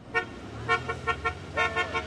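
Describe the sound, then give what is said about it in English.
Car horns honk in the street as motorists drive past teachers protesting outside neighborhood schools: a series of short, moderately faint toots at uneven intervals over a low traffic rumble. “Motorists honked their horns and waved at teachers protesting in front of neighborhood schools.”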